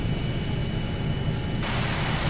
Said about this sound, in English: Here are the pedals and here is the joystick. Nothing to this. Well, here goes. I'm going to try to take off now.